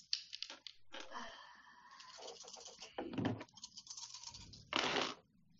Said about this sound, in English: I love rolling six dice.